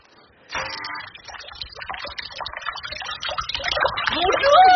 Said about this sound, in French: dont Madame Harpel est si fière, avec sa fontaine poisson qui lance son jet d'eau.